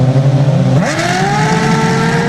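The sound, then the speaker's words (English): A race car engine revs loudly, with a harsh droning tone that sweeps sharply up in pitch partway through and then holds at a high, steady whine. “Doesn't it sound like there's something wrong with this car when they're revving it up? Those engines work at like speeds.”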